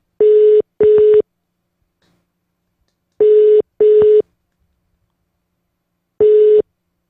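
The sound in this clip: Phone line tones while a call is being placed: short, clean, mid-pitched pips arrive in pairs, two pairs followed by a single pip, with silent gaps of about two seconds between groups.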